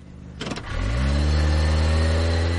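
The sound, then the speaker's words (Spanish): A car engine catches with a short rattling burst as the car pulls out of a parking lot and speeds off, then climbs into a loud, sustained roar. “sale del aparcamiento y avanza con el coche”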